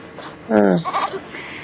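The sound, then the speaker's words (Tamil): A goat bleats once, a loud, wavering, nasal cry that trembles through its length, set in the scene of a film song and standing out over a faint background. “ஆடு பார்த்தது நல்ல பாருங்க ஆடு”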